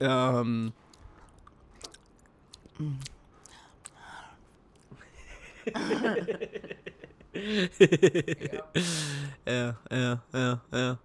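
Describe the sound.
A person eating close to the microphone, with soft crunchy chewing and biting sounds in irregular bursts, mixed with quiet voices and brief chuckles.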